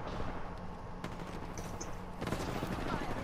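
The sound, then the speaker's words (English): Gunfire in a shooter video game: a dense, steady run of sharp shots that continues through the whole stretch, with a few louder bursts standing out. “Don't waste unnecessary bullets, because. Yeah, that's why I'm using a single fire gun.”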